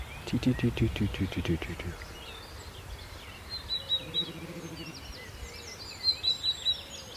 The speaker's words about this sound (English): A sort of so you can pick up the willow warbler.